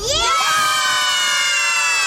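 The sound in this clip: More than ten children shouting loudly together at a festival, making one sustained, high-pitched collective cry that lasts about two seconds.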